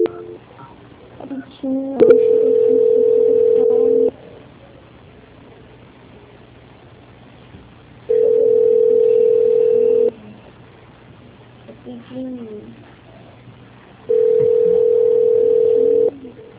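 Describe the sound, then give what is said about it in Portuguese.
Telephone hold tone during a call transfer: three long, steady mid-pitched tones of about two seconds each, separated by longer gaps filled with faint low background noise. “Aguarde em linha, só um momento, por favor. Transferência.”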